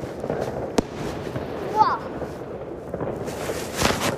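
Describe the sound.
New Year's Eve fireworks exploding near and over a house at midnight, a sharp crack and scattered crackling over a steady rumbling wash of distant bangs, while a voice exclaims.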